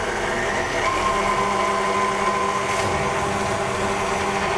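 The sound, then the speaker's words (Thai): An electric mixer beats a mixture at low speed, its motor giving off a steady, even whirring drone throughout. “เพราะฉะนั้นเราก็ใส่ลงไปแล้วก็ตีนิดเดียวนะครับเบา ๆเพราะอันนี้มันขึ้นละไม่ต้องใช้ความเร็วสูงแล้วเนาะ เดี๋ยวเราจะตีอีกรอบนึงครับแล้วก็ค่อยๆขยับขึ้นครับ”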